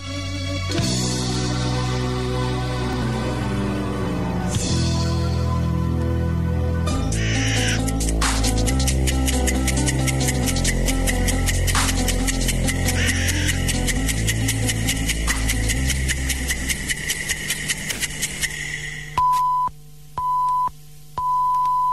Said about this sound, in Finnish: Ja tässä itse asiassa huomaa sen, että kuinka oikukkaita nuo kelit välillä ovat, että ula-asemat kuuluvat hetken hyvin ja häipyvät sitten kohinan sekaan.